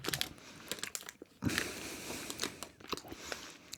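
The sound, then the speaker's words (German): Gummy bears being eaten from a crinkling bag: soft chewing and biting mixed with bursts of plastic crinkling, coming in irregular clusters with short quiet gaps between them. “Ja, obwohl, doch, das ist Orange. Aber es schmeckt... Oh, es riecht ja auch so. Ich habe lange keine Gummibärchen mehr gegessen.”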